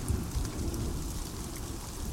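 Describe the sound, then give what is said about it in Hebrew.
Raindrops falling in a steady, dense patter over a low rumbling undertone, continuous and fairly faint, with no voices. “טיפות של גשם, חליל”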